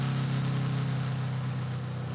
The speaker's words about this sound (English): But then the bike warms up and the sound changes dramatically. It becomes smooth and beautiful.